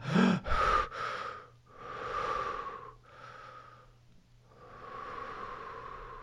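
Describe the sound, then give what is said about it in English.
A voice imitates the rapid, gasping breaths of someone under a cold shower: a few sharp, loud intakes of breath, then longer, breathy, wheezing inhales and exhales that come and go in an uneven rhythm. “You turn it to cold and immediately your heart rate goes flying up. You start breathing like this.”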